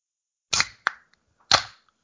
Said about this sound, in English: But yes, this is bubbly. And this is going to be a bit of a different pop. It's going to be more of a crack.